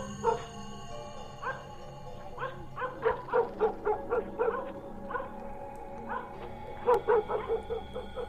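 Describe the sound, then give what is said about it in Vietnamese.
Two house dogs bark at night, standing with muzzles pointed outside: many sharp, moderately loud barks and yips come in irregular bursts and grow busier toward the middle and end. “hai con chó cứ đứng thế chõ mõm ra bên ngoài mà sủa, cho đến khi gà gáy tờ mờ”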